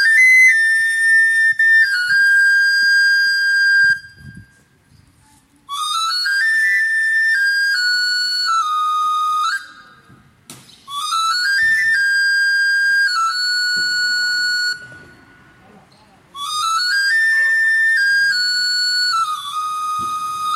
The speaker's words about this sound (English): The knife sharpener would always announce his presence with the little toy harmonica he would play.